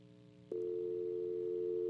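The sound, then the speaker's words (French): Continuous telephone dial tone after a dropped call, a steady, even hum that cuts in after a short moment of low background noise and holds unchanged, fairly faint. “Wow, semble me perdre appel là”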